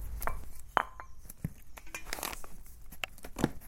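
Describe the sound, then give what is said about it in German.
Chopping of fresh herbs with a ceramic knife while preparing herb salt: a few crisp, sharp taps, unevenly spaced, with no voices. “dann schneide ich es anschließend mit einem Keramikmesser klein. Das können wir jetzt gleich mal machen.”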